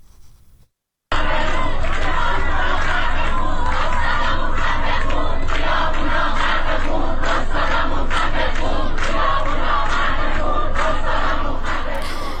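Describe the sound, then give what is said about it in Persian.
University students chant "death to the dictator" at a campus protest. After a brief quieter moment and a short gap, loud massed shouting voices start and run continuously to the end. “ویدیوهای منتشر شده از جمله نشان می‌دهد که دانشجویان این دانشگاه با شعار مرگ بر دیکتاتور در روز دوشنبه دست به اعتراض زدند.”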